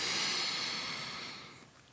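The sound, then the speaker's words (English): A deep inhalation during a guided meditation exercise, heard as a steady, airy hiss that starts fairly loud and gradually fades toward the end, with no talking. “And now inhale and fill the earth with light beneath your feet.”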